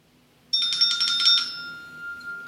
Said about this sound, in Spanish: Ingresa la llamada telefónica.